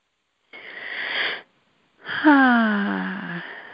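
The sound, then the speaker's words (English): Someone taking a breath: a noisy inhale lasting about a second, a short silence, then a longer breathy exhale carrying a voiced tone that slowly falls in pitch and fades. “Let me take a breath here.”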